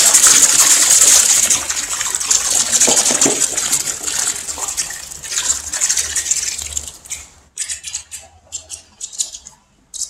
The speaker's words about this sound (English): he's going to dump it into water this time because he doesn't want it to be in a block. He wants it to be in all kinds of little pieces